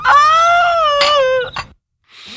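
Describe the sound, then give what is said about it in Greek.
Loud, high wailing cry with strong harmonics, drawn out in a long sustained sob that breaks into a second wail and a short choked catch, then silence and a faint breathy trail. “Κλάμα και οδυρμός και θρήνος.”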